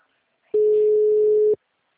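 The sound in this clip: A telephone tone after a dropped call: a single loud, steady mid-pitched tone lasting about a second. It starts and stops abruptly and is followed by silence and a faint click.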